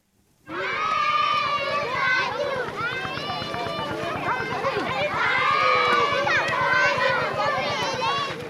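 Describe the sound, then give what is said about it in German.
Children romp, laugh, sing and shout in a school playground between long school buildings in a refugee camp. A dense, loud mass of many overlapping young voices starts abruptly and keeps going without a break. “Kinder toben über den Pausenhof zwischen den langgestreckten Schulgebäuden. Es wird gelacht, gesungen und geschrien. In einem großen Kreis wird getanzt.”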